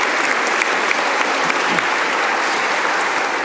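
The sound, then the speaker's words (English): An audience applauds to welcome a guest, with an even wash of many hands clapping. It holds steady and loud for the whole few seconds. “Let's give him again a very warm welcome.”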